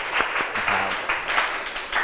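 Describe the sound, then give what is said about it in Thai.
Classroom applause for a group of students after a music quiz answer, a loose patter of individual claps with a few sharper hand strikes standing out, moderately loud and uneven in rhythm. “ปรบมือให้กลุ่มที่3”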